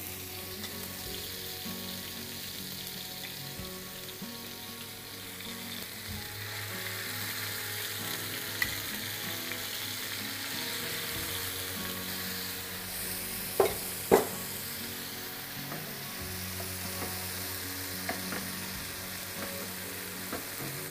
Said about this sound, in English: So I'm just waiting for the oil to heat up a bit. So while I have my oil heated up, so I'm just going to put the fish, you know, just pan sear it, not for a very long time.